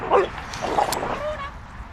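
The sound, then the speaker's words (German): Dog yips and whimpers as a young dog plays roughly with an older female dog, a few short, high-pitched, fairly faint sounds. “Runa will spielen. Sie ist dabei aber ziemlich distanzlos. Sie springt der älteren Hündin gegen das Gesicht und wird immer ruppiger.”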